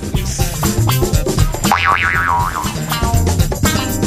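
A cartoon boing sound effect, a springy wobbling tone that bounces up and down in pitch for under a second, set over loud continuous background music.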